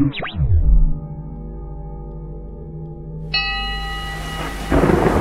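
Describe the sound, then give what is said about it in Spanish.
A thunderstorm opens with a heavy, low thunder rumble, then eases into a sustained tonal drone. A hissing wash of rain builds over the second half and swells louder near the end. “Soy el tronar de las tormentas.”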